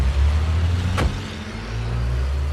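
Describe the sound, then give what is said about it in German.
Cars pull away, a Bentley following close behind, with a steady low engine rumble throughout and one quick whooshing pass near the middle before the drone settles again. “Arrow, Cameron und Elton steigen hastig in den Bentley und noch bevor sie die Tür ganz geschlossen haben, fahren sie hinter unserem Wagen an.”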